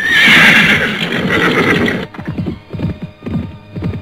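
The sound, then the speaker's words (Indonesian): A horse whinnies loudly for about two seconds, a high shrill neigh, then its hooves beat out a quick, rhythmic run of clip-clop steps. “lima tombak dari tempatnya terdengar ringkikan kuda yang kemudian disusul oleh derap langkahnya”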